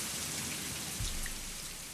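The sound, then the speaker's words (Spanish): Steady rain makes a soft, even hiss that stays faint and continuous throughout, with no voices. “Y se va la lluvia, se va. Como que se fue, no pasajera.”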